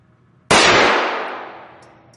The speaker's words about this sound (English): You don't. You don't do anything. You just keep shooting. It's a semi-automatic. Okay. Stare at that front sight, make sure it's in the back sight, and slowly... There you go.